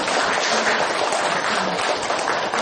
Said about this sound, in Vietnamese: cô bác cho một tràng pháo tay để tán thán